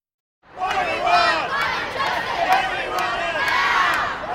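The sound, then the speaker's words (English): A climate strike crowd of students in Foley Square, downtown Manhattan, erupts after a moment of silence into loud massed shouting and cheering, holding steady with sharp high bursts scattered through. “And this is the sound of Foley Square in downtown Manhattan Friday, not far from our offices, the epicenter of a worldwide climate strike led improbably, perhaps, but solidly by millions of students.”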